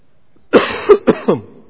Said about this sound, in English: And yes, I am coughing all the time these days.